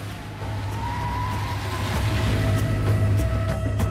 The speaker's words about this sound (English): The car splashes through a puddle and screeches round a corner.